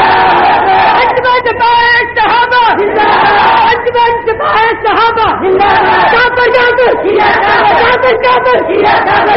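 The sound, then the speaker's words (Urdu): A large crowd at a religious rally shouts a takbir slogan in response, loud massed voices roaring in repeated rhythmic bursts with brief dips between the chanted phrases. “کھڑے ہو کر میرے ساتھ وعدہ کریں کہ ہم سپاہی صحابہ کے پرچم کے نیچے نعرہ تکبیر”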